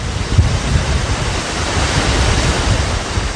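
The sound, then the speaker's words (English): Wind blowing on a breezy day at a national wildlife refuge in Wisconsin, a loud steady rush with low, gusty buffeting against the microphone throughout. “Spend a breezy day at the crane's main summer home in Wisconsin, the Nisida National Wildlife Refuge”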